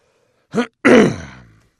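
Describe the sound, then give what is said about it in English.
A man clears his throat in a short, voiced catch followed by a longer, rougher rasp that trails off. “He cleared his throat.”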